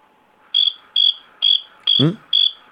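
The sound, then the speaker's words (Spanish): A cricket chirps in six short, high-pitched bursts, evenly spaced and fairly loud against near silence. “El grillo me ha cortado.”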